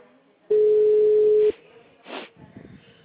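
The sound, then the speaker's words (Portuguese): A single steady ringback tone sounds for about one second on an outgoing phone call. It holds one even, mid-low pitch, stops abruptly, and is followed by brief, faint scattered sounds. “Tô chamando como se eu estivesse ligando pra ele agora.”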